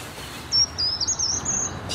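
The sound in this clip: Bird singing in a forest, a very high, thin warbling line that runs unbroken for just over a second, clear above a steady soft background hiss.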